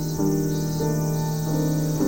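Crickets chirp inside a peaceful ambient music track: a steady high chirping layer runs over sustained, gently shifting musical tones, continuous for the whole stretch.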